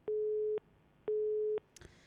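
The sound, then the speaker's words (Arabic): Telephone busy tone after a dropped call: two steady mid-pitched beeps of about half a second each, separated by a short silence, followed by a brief noisy click. “انقطعت المكالمة الهاتفية، نحاول نعاود نتصل”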